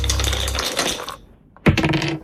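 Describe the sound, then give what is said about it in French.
Two dice are thrown for a board game, rattling and clattering in a brief burst, then a short pause and a second sharp clatter as they land. “Je vous confie les dés et vous les lancez quand vous voulez. Alors attendez, je prends les dés, j'ai les dés dans la main. Eh ben allons-y, c'est lancé.”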